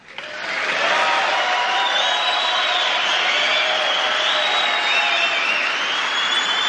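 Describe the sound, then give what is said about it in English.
A rally crowd cheers, swelling within the first second into a sustained, loud roar of voices and whoops mixed with scattered clapping. “Those cheers, if nothing else so far has, those cheers should chill you to your bones.”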